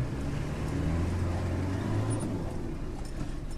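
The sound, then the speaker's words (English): Car driving along a muddy old road past rice paddies, an area being cleared of landmines, giving a steady low engine drone with a faint high squeak midway, alone without talk. “Right now we're driving along the alignment of an old road that Irish teams have been clearing”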